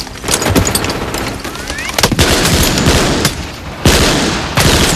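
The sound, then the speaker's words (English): Gunfire from German soldiers firing from behind a sand embankment at American GIs: loud, sustained machine-gun bursts with several sharper cracks and blasts cutting through a continuous rattle. “The enemy fires from behind a sand embankment just 2 yards away. German reinforcements run up behind their comrades, and GIs shoot them down as they race past.”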